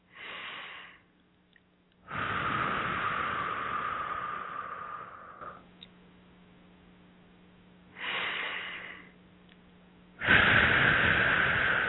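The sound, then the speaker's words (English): Slow, deep breaths in through the nose and out through the mouth come as a few long, airy rushes of breath separated by quiet pauses, with no talking. “Starting with some nice, beautiful deep breaths in through the nose and out through the mouth.”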